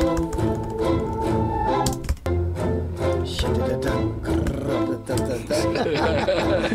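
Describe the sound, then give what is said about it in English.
A marching snare drum plays in a music track being built, with crisp repeated snare hits cutting through a dense, loud backing of sustained tonal sounds. “Marching snare.”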